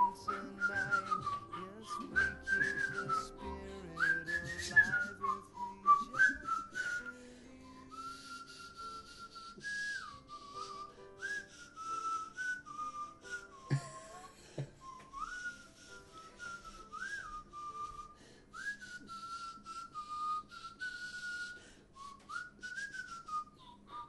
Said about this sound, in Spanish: Bueno, si le silbamos una.